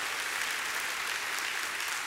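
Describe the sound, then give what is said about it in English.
A church audience applauding in praise, with dense, even clapping that stays loud and steady from start to finish. “Let's give the Lord another hand praise.”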